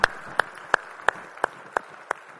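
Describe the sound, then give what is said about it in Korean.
Congregation applauding in praise of the Lord at a church service, seven crisp claps in a steady, even beat over a softer bed of scattered applause. “우리 찬양을 받으신 주님께 영광의 박수 올리겠습니다.”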